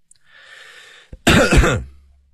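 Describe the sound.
A man clears his throat with one loud, rasping burst that fades quickly, heard alone without speech.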